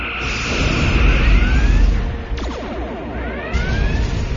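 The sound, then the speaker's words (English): Spaceship firing all its weapon batteries in a sci-fi battle: a loud, rumbling roar layered with sweeping, rising synthetic zaps and a few sharp bursts, with the barrage intensity shifting throughout. “Firing all batteries!”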